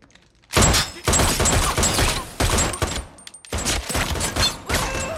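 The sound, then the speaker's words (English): Gunfire aimed at a person wearing a bulletproof suit: several loud, harsh bursts of rapid shots separated by short pauses, with no voices evident. “Shoot him again.”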